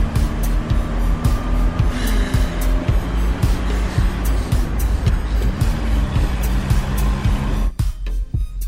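A car is driven fast: a loud, steady engine roar runs throughout, with frequent short knocks and rattles, and cuts off abruptly near the end.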